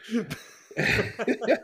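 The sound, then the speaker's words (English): Belching after drinking a Diet Sprite: a few short, throaty, voiced bursts separated by brief pauses, moderately loud, with no other sound. “I just had a Sprite, man. I'm just over here belching.”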